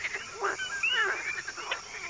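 A night chorus of male frogs of many species calling together, with overlapping chirps and short, sweeping notes at a moderate level and no voices.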